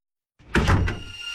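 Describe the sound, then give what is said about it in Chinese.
A door closing, with a few quick knocks and thuds breaking a silence and then a low rumble that lingers. “门关上”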